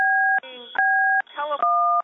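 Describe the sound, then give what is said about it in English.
Phone keypad tones from someone pressing buttons on a phone: a few long, steady dual-pitched beeps, loud and even, separated by brief rough, muffled sounds. “Please stop it. Until somebody stops playing with their phone. It's very rude and distracting.”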